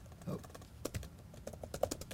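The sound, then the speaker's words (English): Quick, irregular clicks of typing on a computer keyboard as an address is entered into an Excel sheet, many light keystrokes in uneven bursts with no talking. “So with the flash fill functionality, what I'm going to do is I'm going to type in a 389 Oyster Point”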